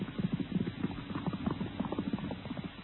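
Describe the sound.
Hoofbeats of a horse galloping at full speed toward the Kaaba in Mecca: a fast, steady run of many dull thuds over a low rumble, with no voices.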